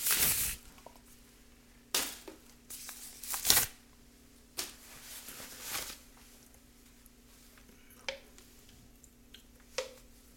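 Soft handling and shuffling of 2023 Prizm UFC trading cards: faint rustles and flicks, a few slightly sharper snaps among them, scattered irregularly over a low, steady hum.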